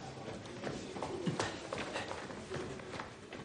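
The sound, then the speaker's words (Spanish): A policeman's footsteps run to an office in a 2009 thriller, a quick, fairly faint series of light taps and thuds in an uneven rhythm. “Uno de los policías corre al despacho de Sonier.”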